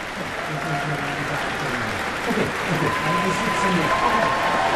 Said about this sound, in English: for more applause for the National Youth Orchestra of the United States of America. Another bow for this group of young people.